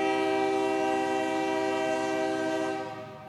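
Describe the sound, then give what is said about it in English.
A train horn sounds on a misty, foggy night in St. Joey Town. It is a single long, steady chord of several tones, held for about three seconds before it fades slightly. “now I get to hear my favorite sound in front of me. Love the sound of a train at night.”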